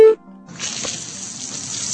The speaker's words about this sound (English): Ah, I got sprayed with water.